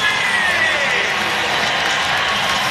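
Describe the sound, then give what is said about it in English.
An arena crowd at a hockey game cheers and applauds a Nashville SC soccer player introduced on the Jumbotron. The roar of cheering and clapping is loud and steady throughout, with no single voice standing out. “Member of Nashville SC introduced to the fans on the Jumbotron here. He stands up to acknowledge the cheers.”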